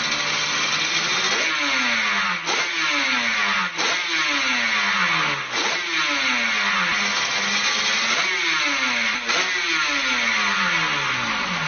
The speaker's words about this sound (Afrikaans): maar dit is 'n klank van 'n tweeslag motorfiets.